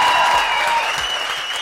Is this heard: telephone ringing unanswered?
no

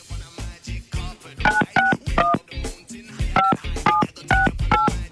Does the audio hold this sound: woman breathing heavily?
no

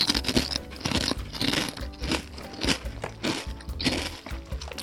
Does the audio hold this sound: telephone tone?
no

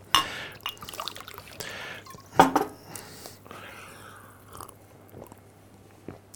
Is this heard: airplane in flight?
no

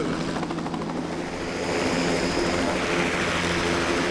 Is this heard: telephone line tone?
no

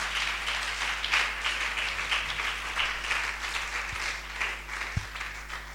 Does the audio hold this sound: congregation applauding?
yes

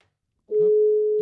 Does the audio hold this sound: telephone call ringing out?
yes

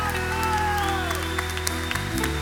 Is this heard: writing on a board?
no

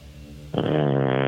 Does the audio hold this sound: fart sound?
yes

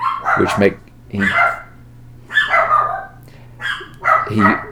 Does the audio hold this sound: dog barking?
yes

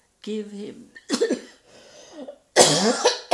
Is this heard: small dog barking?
no

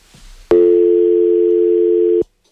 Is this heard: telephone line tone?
yes

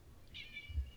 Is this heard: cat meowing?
yes

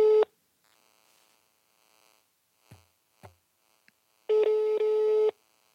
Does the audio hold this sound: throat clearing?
no

